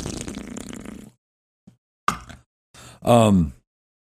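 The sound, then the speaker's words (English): A drink can is cracked open: a small click, then a sharp pop with a brief fizzing hiss, followed by a short vocal sound. Talk comes just before. “So with that being said, I'm gonna crack this open, toasting it up.”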